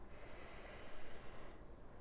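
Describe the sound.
A single long, airy inhale taken during a guided meditation, a soft steady hiss of drawn breath lasting about a second and a half before it fades out, with no voice over it.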